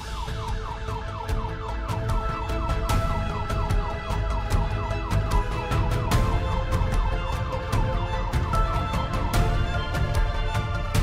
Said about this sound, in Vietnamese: phát hiện ra hai chiếc xe cảnh sát này đã thình lình bật còi hú chạy đằng trước